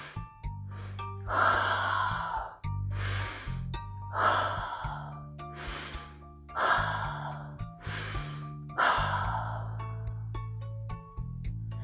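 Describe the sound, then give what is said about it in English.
Slow deep breaths drawn during a calming breathing exercise, several long breathy rushes that swell and fade in a steady rhythm over a low, constant humming drone, with no talking. “So let's take some deep breaths.”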